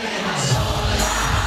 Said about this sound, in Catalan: Aquest és el so del concert que va fer en una discoteca a Lleida, que es diu Vilova.